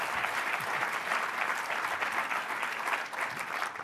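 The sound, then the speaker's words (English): Audience applause welcomes guests to a political panel discussion, with steady, dense clapping that holds at an even, loud level throughout. “So give them a hand. Make them feel welcome.”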